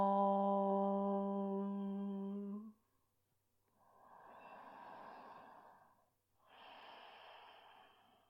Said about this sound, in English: First, take a full breath in through your nose. Exhale out the mouth. Inhale to chant.